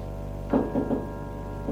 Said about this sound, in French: On a frappé à la porte.